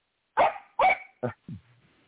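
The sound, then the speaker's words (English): A dog barks four times in quick succession, sharp, mid-pitched barks with the last two shorter and lower, leaving a faint tail afterward. “Go take the damn dog for a walk, man.”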